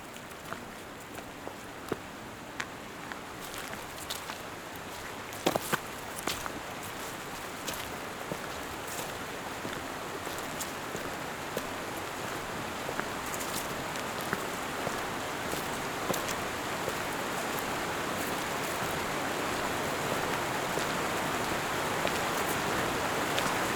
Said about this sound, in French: regarde la pompe là, qui rejette l'eau extérieurement.